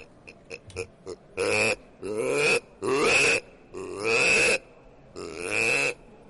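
A man imitates a wild boar's grunting at the Niš fair: a few short, clipped grunts lead into five longer, rough, throaty grunts with brief pauses between them.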